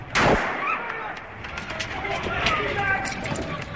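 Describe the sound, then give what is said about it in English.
A single sharp gunshot is fired into the ground during an armed jewellery-store robbery on a busy shopping street. The loud crack is followed by steady street commotion with voices underneath. “A shot fired into the ground stirred more panic as the bandits made their getaway”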